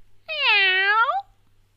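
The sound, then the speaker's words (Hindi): A single clear kitten meow comes from a litter of five kittens lying on a blanket in a cardboard box, lasting about a second and heard alone. “गत्ते के डिब्बे में एक कंबल में बिल्ली के पांच बच्चे, पर वहां भी चश्मा नहीं है।”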